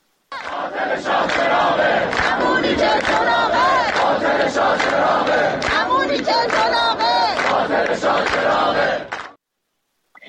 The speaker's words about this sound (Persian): دانشجویان دانشکده فنی تهران هم از جمله شعار سر دادن که شاه چراغ رکس دیگه است، اینم یه نیرنگ دیگه است. بشنویم صدای دانشجویان دانشکده فنی تهران رو.